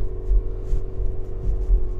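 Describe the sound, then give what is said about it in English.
A car drives into work on an early morning commute at 6:50. The engine rumble and road hum are steady and low, with soft rises and dips, and no one talks. “Driving into the day job. 6:50 in the morning.”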